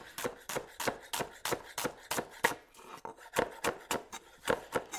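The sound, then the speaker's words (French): Rapid knife strokes finely slicing onions into very small pieces, many crisp, evenly spaced chops in a steady rhythm, fairly faint and alone without talk. “On va partir sur une émincée d'oignons. Ce qui va, euh, à la fin, on va avoir vraiment des, des tout petits bouts d'oignons.”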